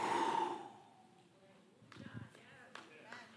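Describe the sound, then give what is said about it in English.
A man's voice imitates God breathing life into Adam, formed from clay, with one forceful, breathy exhale at the start, then near silence and a few soft taps. “I've been waiting for you since I breathed life in the very lungs of Adam. He picked Adam up, he was a ball of clay, and he went,”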